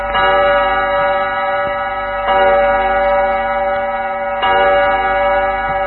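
A studio clock time signal marking 9 pm: three sustained, ringing, bell-like harmonic tones at steady intervals, with no speech.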